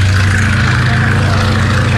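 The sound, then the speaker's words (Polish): A propeller aircraft engine drones at an air rally of Antonov planes in Masuria, Poland, a loud, steady low hum with a pulsing, buzzy edge that never lets up. “Ponad 100 samolotów, a wśród nich 30 Antonowów przeleciało na zlot lotniczy w Wilamowie pod Kętrzynem na Mazurach.”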